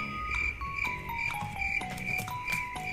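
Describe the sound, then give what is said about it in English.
Cricket chirping played as a sound effect: a high chirp pulses in a steady repeating rhythm, with a few lower tonal blips underneath. No talk. “Make it crickets. What, crickets? Yeah. Okay. All right, crickets.”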